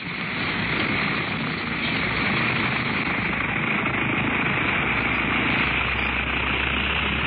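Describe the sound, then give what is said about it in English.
An aircraft engine drones during takeoff, a loud, continuous throbbing roar that holds steady throughout. “Everything is ready for the takeoff, please. Safety belts fastened and off. Then, here we go.”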